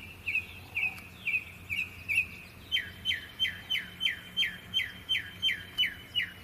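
A bird calls at night in a long, regular series of clear high chirps. Early notes are slurred, and later ones become sharply down-slurred and evenly spaced, over a faint low hum.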